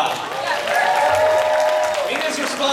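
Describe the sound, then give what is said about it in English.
An audience applauds a comedian at a live event, a steady wash of clapping and cheering voices, fairly loud, with a voice speaking over the crowd. “Can we have an applause for him?”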